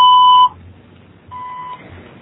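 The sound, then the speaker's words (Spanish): A voicemail beep tone: a loud, steady electronic beep lasting about half a second, then after a pause a second, quieter tone. “Usted puede dejar un mensaje después del tono.”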